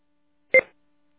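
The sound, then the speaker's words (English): An incoming landline call on an amateur radio net sounds as a single short, clean dual-tone telephone beep, alone against silence. “We got an incoming landline call.”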